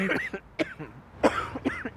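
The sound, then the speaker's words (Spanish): Persistent, spasmodic whooping cough, a series of harsh coughs coming in uneven bursts, several in quick succession. “Estas toxinas irritan las mucosas y destruyen los cilios. La consecuencia es la tos persistente y espasmódica.”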